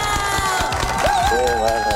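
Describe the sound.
Studio audience cheering and applauding a guest on a live show: a loud, continuous mix of clapping and shouting, excited voices, with some high whoops rising above the crowd noise.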